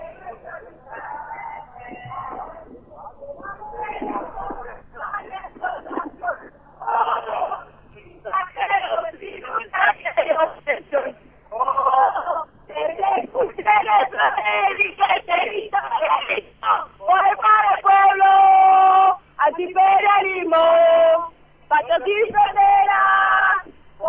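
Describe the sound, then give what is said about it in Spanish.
A crowd chants over a telephone line at a memory, truth and justice rally: thin, band-limited rhythmic phrases repeat in many bursts and grow louder and denser toward the end. “déjanos percibir a través de tu teléfono el fondo del cántico”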